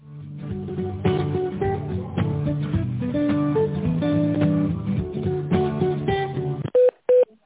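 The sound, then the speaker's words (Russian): Two short telephone keypad tones dial an employee's extension on a company's phone line. They come at the end as two clear, loud beeps, right after the hold music stops. “Пожалуйста, наберите добавочный номер сотрудника.”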